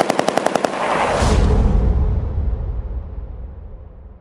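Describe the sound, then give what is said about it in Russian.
A Degtyaryov machine gun fires a rapid burst of sharp shots, followed by a heavy, dull boom that swells into a deep rolling rumble while quick repeated reports continue beneath it and slowly fade. “От размышлений ее оторвал сильнейший глухой удар где-то позади и почти сразу заполошная очередь дегтяря.”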